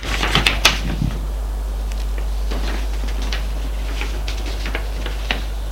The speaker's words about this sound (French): Il griffonne le papier.